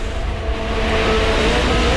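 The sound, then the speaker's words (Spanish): Formula 1 race cars, a Mercedes among them, accelerating along the main straight of a circuit. A loud, continuous, high-revving engine roar holds steady throughout, with no voices. “la velocidad de punta del Mercedes la aceleración en la recta es mejor. Ahí están en la recta principal.”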